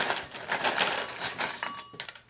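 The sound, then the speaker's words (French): A small 30-gram bag of crisps is opened, giving a busy run of sharp plastic crinkles and crackles that continues throughout at fairly even loudness. “Donc si on regarde, ça me permet d'ouvrir le paquet. Hop.”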